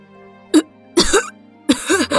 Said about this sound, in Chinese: 白嬷嬷这才气急的咳了起来